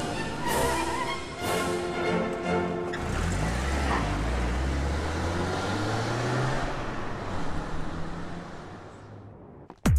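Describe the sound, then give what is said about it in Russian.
A car driving away: a loud, rumbling engine whose pitch climbs as it accelerates, holding a steady roar until an abrupt end. “Садится в свою машину и уезжает.”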